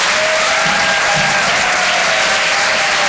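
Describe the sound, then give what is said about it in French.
Loud, continuous applause from an audience at a comedy show in Paris fills all three seconds with a dense, even roar of clapping and no pause. “Je vous demande de faire un maximum de bruit, s'il vous plaît, pour Vincent Cerroussi.”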